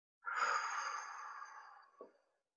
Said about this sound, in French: Et ensuite, vous soufflez.